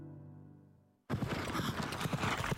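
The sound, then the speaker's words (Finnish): Horse hooves clip-clop for a city trotting race event at a fortress in Lappeenranta. A quiet tonal opening gives way abruptly to a loud, dense, continuous clatter that runs to the end. “Hevoset valtaavat Lappeenrannan linnoituksen 5-6. Kesäkuuta.”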